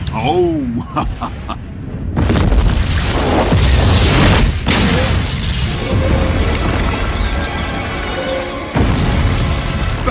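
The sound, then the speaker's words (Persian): Napalm bomb explosion: a sudden loud blast breaks in after about two seconds and becomes a sustained roaring rumble. Further heavy bursts follow, and thin whistling tones come before the blast. “بمب ناپالمه. وای، کارشون رو زود شروع کردن.”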